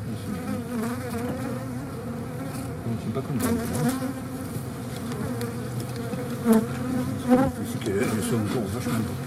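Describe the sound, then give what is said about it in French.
Honeybee colony humming inside the hive, a dense, steady buzzing drone with layered tones and a few slightly louder swells, heard alone with no talk. “Le son dans la ruche, en fait, c'est pas un brouhaha, c'est un chant.”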